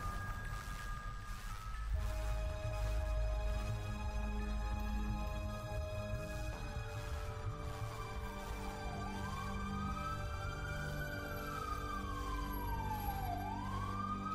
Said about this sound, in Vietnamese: Tiếng còi xe cứu thương kéo dài suốt một quãng đường